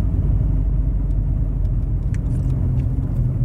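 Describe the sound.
A car engine hums while driving and shifting into third gear: a steady, low rumble that holds evenly throughout, with no talk.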